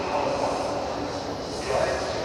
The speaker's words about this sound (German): Aber wie ihr vielleicht hören könnt, bin ich gerade am Frankfurter Hauptbahnhof.